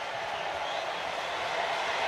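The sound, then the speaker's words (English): A baseball crowd at an Astros game builds its noise before a full-count pitch: a dense, even roar that holds steady throughout, with no distinct claps standing out. “Crowd whipping it up, and the payoff pitch.”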